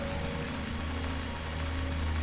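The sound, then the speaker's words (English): Steady rain falling, a continuous soft hiss of many small drops with a low hum beneath, even in level throughout and with no voices. “Just the same rain, over and over again.”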